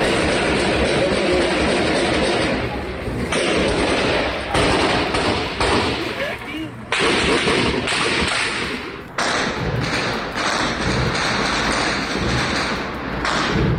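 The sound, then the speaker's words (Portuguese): Heavy-calibre weapons fire in many sharp, thudding reports during an armed confrontation. The loud bursts are dense and nearly continuous, with only short gaps between volleys. “A gente tem até um trechinho de vídeos que circularam nas redes sociais mostrando a intensidade desse confronto, inclusive com o uso de armas de grosso calibre.”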